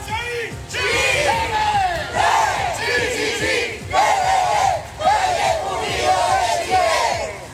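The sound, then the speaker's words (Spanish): About a hundred Malleco Unido football fans chant as they march through the city centre. Loud massed voices repeat the same rising-and-falling chant phrase many times, with short breaks between phrases. “Bueno, ahí está parte del sonido ambiente de un centenar de hinchas de Malleco Unido que salieron a marchar durante esta tarde acá en el centro de la ciudad”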